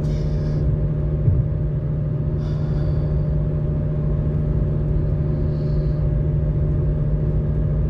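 Steady low rumble of a car driving: an even engine and road drone throughout, with a few faint high hisses and no talk.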